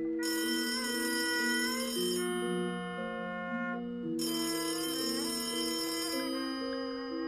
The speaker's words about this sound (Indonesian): bareng keprungu suarane telpon ing dhuwur meja kerjane